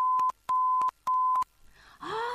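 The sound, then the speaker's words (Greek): A cordless telephone rings three times in even bursts, each a steady electronic tone with sharp clicks, before other, noisier sounds follow. “Το ασύρματο τηλέφωνο.”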